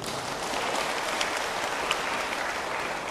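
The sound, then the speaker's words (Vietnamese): An audience claps at the Ngoc Hai nuns' temple in Long Hai, Ba Ria–Vung Tau, with a dense, even round of applause that stays at a moderate level without pause. “Quý vị hãy dâng cao một tràng vỗ tay thật là lớn”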